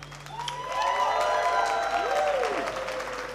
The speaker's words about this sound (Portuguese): aplauso para usted, gente linda.